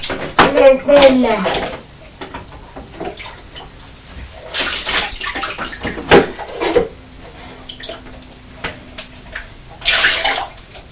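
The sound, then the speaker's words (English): Water pours and splashes into a bath as a child fills it from a bucket or bowl, in a few loud gushing bursts separated by quieter trickles. Voices talk in between the pours. “It's going quicker now, isn't it? Because you're pouring a lot of water in it.”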